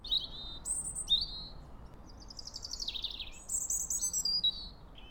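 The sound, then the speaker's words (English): Birds chirping, a series of short, high, bright chirps and trills, some rising and some falling. They come in quick bursts, faint over a low, steady background hiss. “birds chirping signal safety and reassurance.”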